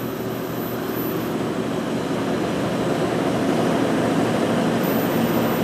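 A machine turns and winds wool in a textile factory, giving a loud, unbroken mechanical drone that holds steady throughout.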